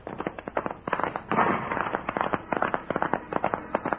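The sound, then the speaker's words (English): Gunshots fired by a horseman fleeing a posse of convicts' pursuers: a rapid, irregular volley of many loud, sharp cracks and pops packed into a few seconds, with no voices. “The horseman, the man who fired the shots, ride away fast.”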